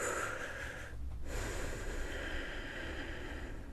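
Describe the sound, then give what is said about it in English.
A deep relaxing breath: steady, airy breathing that fills nearly the whole clip at an even loudness, with a brief dip in the hiss partway through. “Let's take a deep breath to relax.”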